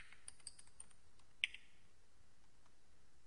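A few sparse, light clicks of keys on a computer keyboard as a username and password are typed in, quiet over a faint background hiss.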